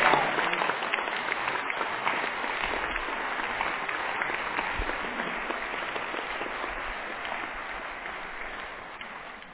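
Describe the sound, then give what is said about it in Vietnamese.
A church audience applauds in thanksgiving, a dense, steady wash of many hands clapping together that carries on for several seconds and tapers off slightly toward the end. “Xin anh chị em tạ ơn Chúa, vỗ tay tạ ơn Chúa một lần.”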